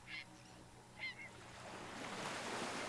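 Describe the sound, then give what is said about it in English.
Seabirds nesting in flocks on cliffs above a beach give two loud honking calls, one early and one about a second later, over a steady wash of surf that grows toward the end. “On the cliffs surrounding the beach, flocks of seabirds are nesting.”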